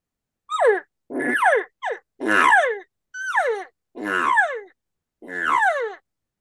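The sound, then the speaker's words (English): A person imitates a cow elk's estrus buzz call by sputtering air through the lips. Seven raspy, buzzy calls each sweep downward in pitch, separated by short silent gaps, with no talk. “And then if you want to do it through your lips, that's a little bit harder for most guys.”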